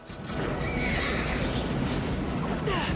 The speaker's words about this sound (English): One of the horses rears up.